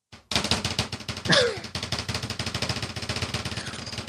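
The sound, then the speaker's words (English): A drum roll starts abruptly and runs as a rapid, even stream of many quick hits, with a brief swooping sound near its start and steady loudness afterward. “I'm waiting for the drum roll.”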